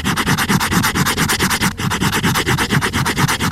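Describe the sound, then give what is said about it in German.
Rubbing on a hardcover book binding: many quick, evenly spaced scraping strokes in a steady rhythm, loud and dry, with no voices. “Ein Hardcover-Einband von einem Buch.”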